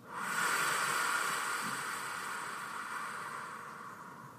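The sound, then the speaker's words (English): A long, deep meditation breath, heard as a steady airy hiss that swells quickly and then slowly tapers over about four seconds. No one talks over it. “So this is what that breath sounds like. Deep breath in.”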